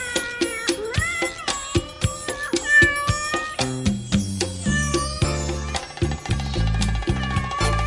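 A cat meows over and over in many wavering, pitch-bending cries. Partway through, a steady musical backing of stepped low tones joins them.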